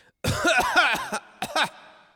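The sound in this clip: Coughing and throat clearing come as a rough run of several harsh, voiced bursts. After a short pause, two more quick bursts follow, all moderately loud with no talk.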